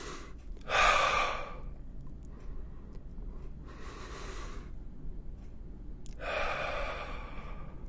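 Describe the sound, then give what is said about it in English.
Three deep, slow breaths taken during a relaxation exercise, each a soft, airy rush lasting about a second, separated by quiet pauses over a faint low background hum, with no talk. “We are going to chill out. Take a deep breath.”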